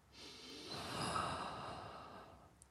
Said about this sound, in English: Take a breath.